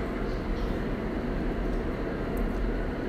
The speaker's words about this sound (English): Sorry for the express train.